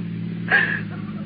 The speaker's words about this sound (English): He's stopping for gas. He got my money. He said he'll shoot us and the gasoline attendant if we make any noise. Honey, easy. He left the motor running.